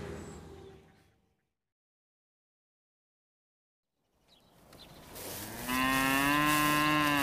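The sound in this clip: Cattle in a herd moo: after a quiet stretch, a long, deep, loud moo swells up and holds to the end.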